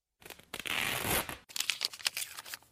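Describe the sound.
Crinkly rustling and tearing as a bandage is unwrapped from an injured, broken ankle: one sustained stretch of rustle, a brief gap, then a second run of choppier crackles, fairly faint and without talk.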